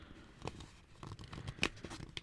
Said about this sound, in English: And then fold that.